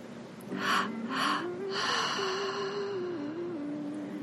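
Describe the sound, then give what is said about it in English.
Breathing through the mouth in a guided breathwork exercise: two short, sharp inhales, then a longer drawn-out exhale, with quiet sustained music underneath. “And starting with the breath through the mouth, two breaths in and one breath out.”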